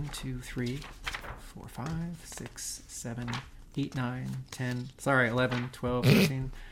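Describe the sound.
Pages of a book are flipped, giving brief papery rustles between and under steady talking.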